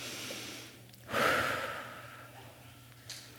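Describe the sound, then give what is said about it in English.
One deep breath, taken slowly and softly during a church service, stands out alone over a faint steady hum, swelling briefly and then fading away. “Let's take a deep breath.”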